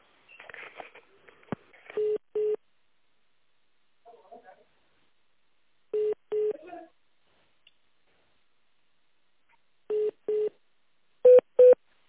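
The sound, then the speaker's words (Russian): Short paired telephone tones repeat during a business call that is being transferred to a specialist, with a brief stretch of talk at the start. The double beeps recur at steady intervals with silence between, and the last pair is slightly higher in pitch. “Сейчас переключу вас, специалист Сергей зовут.”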